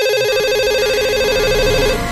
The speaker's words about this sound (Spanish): Está sonando un teléfono. Un teléfono en la madrugada.